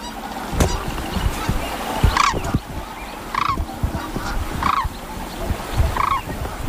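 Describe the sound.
A pair of sandhill cranes call in a few loud, rattling, honking bursts, spaced roughly a second apart, over a noisy outdoor background.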